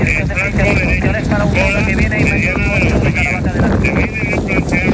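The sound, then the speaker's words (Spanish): Strong wind blows during a wildfire near Lubrín over very dry terrain, roaring and buffeting steadily beneath a person who talks throughout. “Como puedes escuchar, el fuerte viento y las condiciones del terreno tan seco han complicado mucho las labores de extinción, que continúan hasta ahora.”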